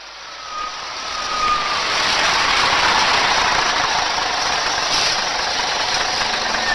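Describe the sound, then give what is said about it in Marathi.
A bus engine idles as the bus arrives, a broad, steady mechanical roar that swells over the first couple of seconds and then holds at a constant loud level, with no voices. “चला चला बस आली आहे.”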